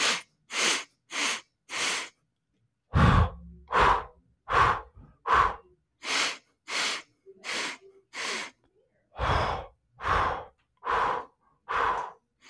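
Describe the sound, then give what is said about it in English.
Heavy, rhythmic breathing from a breathing exercise, with nasal breaths in and mouth breaths out. Many loud, airy breaths come in quick sets with brief pauses between them, and no talk. “you take in 4 nasal breaths and then 4 mouth breathe outs. So it's literally very heavy.”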